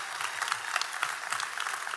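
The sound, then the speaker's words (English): A church audience claps in praise during a worship service, a steady, dense patter of many hands that holds an even level throughout and stays fairly soft, with no voices rising above it. “if you love Jesus, let's give him a hand clap of praise”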